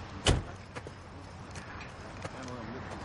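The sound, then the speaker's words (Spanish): A car door slams as a police officer gets out of a car on a street at night: one sharp, loud bang near the start, followed by faint shuffling and low background noise. “De noche, en la calle un policía baja del coche y se acerca a un grupo de gente.”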